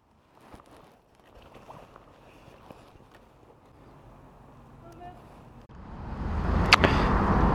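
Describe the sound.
A Zero DSR/X electric motorcycle on Mitas E07+ tyres pulls away: faint rustling and road noise at first, then a sudden, strong surge of wind rush that stays loud to the end.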